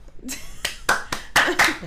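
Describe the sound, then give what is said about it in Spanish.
Six sharp, separate hand claps on a studio show, spaced unevenly and rising in loudness, with voices talking between them. “Aplauso del público. Claro. Si no hay aplauso, no hay nada.”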